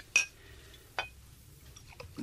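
Glass clinks as brandy is served from the bar shelf: two clear, bright chinks about a second apart, followed by a few fainter taps and clicks, quiet and without talk.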